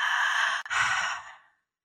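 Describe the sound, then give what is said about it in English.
Conscious connected breathing flows in and out without pausing at the top or bottom. Two airy, breathy passes of air run together with barely a break, and the second trails off into silence. “And this breath is actually one that is, it can be done either in and out through the mouth or in and out through the nose. And the only distinction is that you're not actually stopping and pausing at the top or the bottom. So it sounds like this.”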